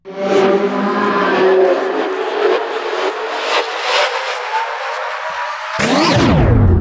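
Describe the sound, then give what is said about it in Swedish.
A time machine departure sound effect begins as a rough whirring drone that climbs steadily in pitch for several seconds. It then breaks abruptly into a loud swooshing sweep that drops away. “Vi sätter oss i tidsmaskinen och åker.”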